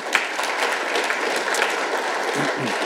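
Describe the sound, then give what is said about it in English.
Applause from a church audience welcoming visitors at a morning service: steady, dense clapping that holds at an even level for the whole stretch, with no voices over it. “Welcome, all of those visitors. Let's give them a hand, please.”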